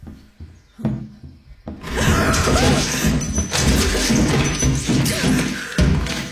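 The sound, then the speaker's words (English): A person falling down a staircase: a few scattered thuds and knocks, then a loud, sustained clattering crash of tumbling bumps and scrapes that continues to the end. “You fell down the stairs!”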